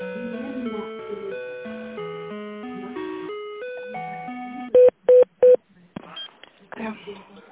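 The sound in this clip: Telephone number dialed on a keypad, its DTMF tones coming as three sharp, loud beeps in quick succession after a steady tonal melody, followed by quieter faint sounds.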